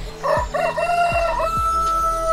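A rooster crowing, one loud harmonic crow lasting about a second, followed by a fainter sustained tone and a few low thumps.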